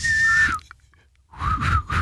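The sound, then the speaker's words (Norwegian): A person tries to whistle, producing a thin, wavering whistled tone that breaks off, then after a brief pause a few breathy, airy whistling attempts with uneven pitch. “du klarer jo ikke å plystre”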